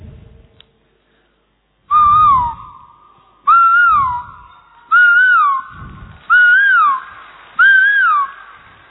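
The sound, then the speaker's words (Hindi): A voice imitates the call of a koel from Himachal: five loud, whistle-like calls, evenly spaced, each a clear tone that rises and then drops, with no talking between them. “Himachal का कोयल”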